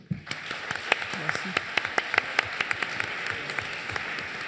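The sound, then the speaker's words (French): An audience at a real estate conference panel gives an ovation. Many distinct, sharp claps come at a fairly even pace over a steady background of softer clapping, and the level stays moderate throughout. “Ovation pour Jean-Marc Torolion.”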